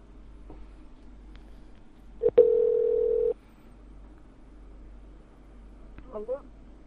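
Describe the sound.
A telephone tone sounds while a call is being placed. A single steady electronic tone lasts about a second, framed by faint clicks, and a short warbling electronic chirp follows near the end over a quiet line.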